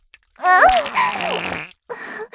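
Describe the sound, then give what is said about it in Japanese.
A fart, a sputtering, buzzy blast with a squeaky tonal middle that bends downward, then a shorter rasping burst after a brief silence. “ごめんね。まだおならが残ってたみたい。もう少し出しちゃうわね。”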